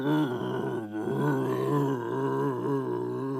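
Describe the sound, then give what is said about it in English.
A human voice imitates a lion grumbling over its kill, making a low, continuous growling rumble with a gravelly texture and slightly wavering pitch, held steadily throughout. “it's like a lion who's just had a kill and it sits next to its meal and it just starts to grumble like,”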